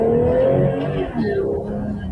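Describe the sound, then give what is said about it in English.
A regular passenger car drives downhill on the Oakland Hills, heard from a dash cam as a steady, continuous engine and road rumble with a faint sustained tone. “It's a dash cam of just a regular passenger vehicle driving down Oakland Hills.”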